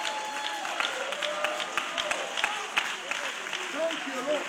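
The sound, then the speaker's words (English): Hand claps from a church audience in praise during a worship service: a few scattered, sharp claps over a steady murmur, with a voice talking over them. “You give him another hand clap of praise.”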